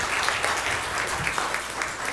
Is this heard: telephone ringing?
no